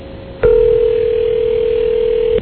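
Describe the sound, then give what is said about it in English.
Telephone ringback tone while calling a 7-Eleven store: a single steady mid-pitched tone lasting about two seconds, heard over a narrow, band-limited phone line. “now I'm praying that someone answers the phone at 7-Eleven”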